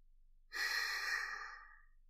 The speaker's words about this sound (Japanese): ゆっくり息を吸って、吐いて、吸って、